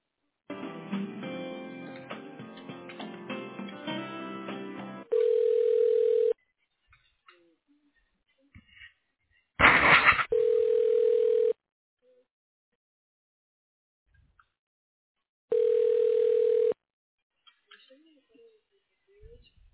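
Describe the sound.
Telephone line tones while a call is transferred to voicemail: three steady, mid-pitched tone bursts of about a second each, spaced several seconds apart, after an opening stretch of denser, busier line sound.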